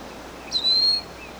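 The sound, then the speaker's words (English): Wild birds calling: a single high, thin whistled note of about half a second that stands out over steady background hiss. “We have two wild birds over the top.”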